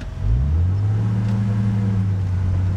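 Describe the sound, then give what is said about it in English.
A restored 1948 snow coach's engine runs with a steady, loud, low rumbling drone. Its pitch steps up slightly just after it starts, then holds an even tone throughout. “David Fushi took me out for a spin in his restored 1948 snow coach”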